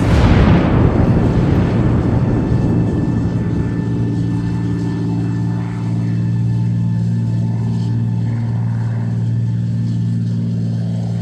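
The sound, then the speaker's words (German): Gunfire strikes oil tanks and sets off a massive explosion. A powerful blast at the start decays into a long, low rumbling roar over a steady droning hum, with no voices. “Der hat da hinten auf die Öltanks geschossen.”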